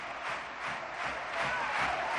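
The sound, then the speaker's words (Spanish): A stadium crowd gives footballer Jesús Navas a tremendous ovation as he hands over the captain's armband, a broad, continuous roar that swells slightly toward the end. “Ovación tremenda a Jesús Navas.”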